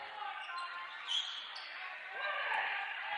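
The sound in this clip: Basketball dribbled on a gym court during a high school girls' game, the bounces blending into steady, loud crowd noise with no clearly separate thuds.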